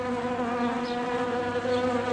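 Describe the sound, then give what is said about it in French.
Bees buzzing in large numbers, a dense swarm forming a carpet of insects: a loud, steady droning hum with rich layered tones and no break. “On a un joli tapis d'abeilles pour vous accueillir cet après-midi”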